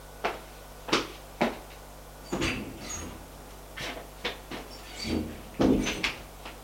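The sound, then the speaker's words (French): Several sharp knocks on an office door at a police station, landing irregularly with uneven spacing and varied loudness, each a brief dry rap over a low steady hum. “On frappe.”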